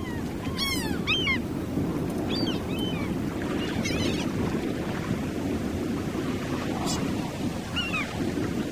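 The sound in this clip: Wind and sea waves rush in a steady, dense wash while a ship sails with the wind from behind, with a few high squeaking calls above it.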